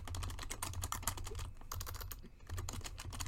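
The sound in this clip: Rapid typing on a computer keyboard, with many quick, crisp keystroke clicks in a steady, dense stream that barely pauses, fairly quiet and with no voices.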